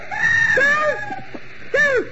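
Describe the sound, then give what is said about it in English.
A scream from a room down the hall, one long wavering high-pitched cry followed by a shorter second cry, loud and alone. “That scream wasn't upstairs.”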